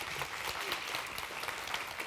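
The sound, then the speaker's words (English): An audience claps steadily at a church youth gathering. The applause is a dense, even patter of many hands at moderate loudness, with no voices over it. “Jack Cohen, which can we have a round of applause for him because he's just awesome”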